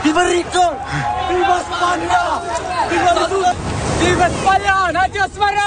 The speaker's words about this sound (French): Ce que vous entendez, c'est l'arrivée par la mer de milliers de migrants qui ont franchi la frontière.